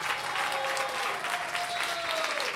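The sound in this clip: Applause for choir singers being introduced: steady, dense clapping from an audience, even in loudness from start to finish with no pauses.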